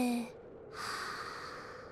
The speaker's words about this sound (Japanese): 深呼吸でちゃんと空気を体内に取り込もうね。せーの、吸って、吐いて、